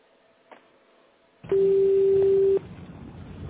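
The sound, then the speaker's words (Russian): A telephone ringback tone sounds while a call is being dialled: one steady, loud, mid-pitched beep of about a second over faint line hiss, followed by softer background noise. “Я продолжаю дозвон. Пожалуйста, подождите немного.”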